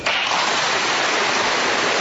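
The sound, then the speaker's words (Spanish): Loud, sustained applause from members of the Colombian Congress as a speech ends. It forms a dense, even wash of clapping with no distinct claps standing out and no voices over it. “Con ese sonoro aplauso terminó el discurso del señor Salvatore Mancuso”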